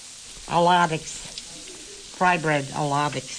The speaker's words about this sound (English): We're making million-dollar soup and fried bread.